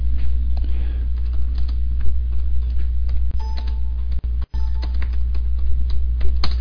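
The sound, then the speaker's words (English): Typing on a computer keyboard makes scattered, irregular keystroke clicks over a loud, steady low hum. “You don't see what I just typed?”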